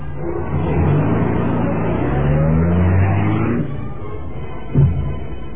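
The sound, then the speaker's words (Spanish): A black luxury car drives in through a large steel gate, its engine giving a steady low rumble that swells, holds, then eases off, followed by a brief knock near the end. “Después de sonar el claxon, la gran puerta se abría dando paso al lujoso auto negro.”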